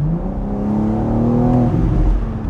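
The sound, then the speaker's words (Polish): Deep, bassy exhaust rumble from a convertible driving with its roof open, windows up and wind deflector fitted. The engine drone is low and steady throughout, with no talk. “wydech nam w tym wszystkim trochę pomaga. On jest bardzo basowy”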